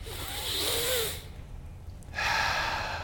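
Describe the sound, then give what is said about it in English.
A person breathes in and then out in a slow demonstration: two long, airy, moderately loud breaths separated by a short quiet pause, heard alone. “That's how you live. You breathe in. You breathe out.”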